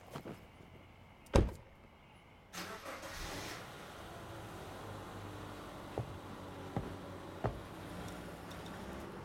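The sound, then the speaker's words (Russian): A woman gets into a car: a single faint door thump, then a burst of engine noise that settles into a low, steady hum, with a few small clicks later on, all quiet. “Она садится в машину.”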